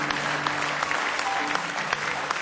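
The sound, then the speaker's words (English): Applause from a church audience clapping hands in praise during a worship service, a steady, dense patter of many hands that holds at an even level throughout. “Give him one more hand clap of praise in the house of God today.”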